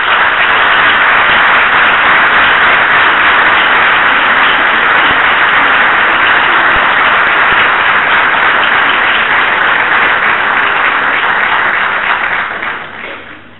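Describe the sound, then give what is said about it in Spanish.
Audience applause welcoming a lecturer at a psychology lecture series: dense, steady clapping that holds loud and even for about twelve seconds before fading out at the end, with no voices over it. “Con ustedes, el doctor Abelardo Vitor, lo recibimos con un fuerte aplauso.”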